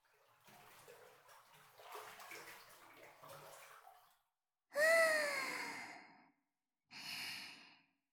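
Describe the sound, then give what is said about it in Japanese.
Someone gets into a hot bath: soft, continuous water sloshing and splashing for about four seconds, then two long, relaxed voiced sighs after a brief pause. “じゃあお風呂行こっか。”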